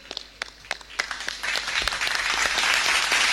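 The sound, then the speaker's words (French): Audience applause for parish groups at the final of a faith-themed event. A few scattered claps open it, then dense, steady clapping swells and stays loud to the end. “Merci, chers amis. On va acclamer hein, la paroisse qui sont présentées.”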